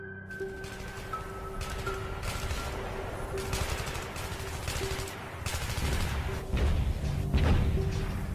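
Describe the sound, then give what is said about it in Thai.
Gunfire and explosions in a sustained battle: dense, continuous rattling bursts of shots mixed with heavier booming blasts, loud and unbroken throughout. “เสียงปืนยังคงยิงกันสนั่นต่อเนื่องระเบิดยังคงกึกก้องไปทั่วบริเวณ”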